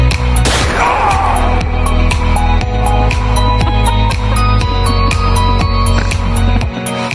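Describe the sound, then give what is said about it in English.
A single sharp, loud gunshot bang near the start, followed by a sustained loud, dense sound with regular sharp hits running through to the end. “Please, God, make the gun jam so she doesn't shoot me.”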